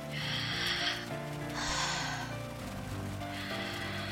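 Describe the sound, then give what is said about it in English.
Deep breathing in and out: three slow, airy breaths at an even pace, heard over steady background music. “Look me in the eyes and breathe in and out.”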